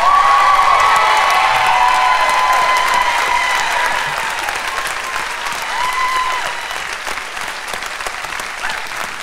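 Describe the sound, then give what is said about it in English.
Audience applause welcoming a speaker to the stage: dense, steady clapping with scattered cheers and whoops, loud throughout and easing slightly in the second half. “Please help me welcome Clark Peters.”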